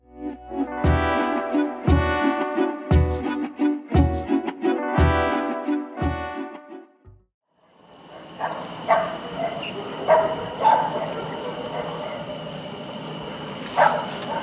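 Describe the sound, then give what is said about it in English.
A dog barks in a steady, evenly spaced run of loud barks, followed after a brief lull by the continuous high-pitched chirping of crickets with faint distant noises, heard around the mountain city of Guanajuato in Mexico. “The sound you hear in the background is the sound of dogs barking and crickets chirping around the Mexican city of Guanajuato”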